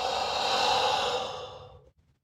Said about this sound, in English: Inhale. Exhale.